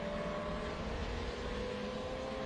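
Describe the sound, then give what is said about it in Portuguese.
Race car engine roar from an old stock-car race as the car rounds a curve, a steady, loud and unbroken mechanical drone that holds evenly throughout. “Você vê o carro do Felipe Lemonias, que nesse momento é o 11 colocado. Contornando a curva da mata.”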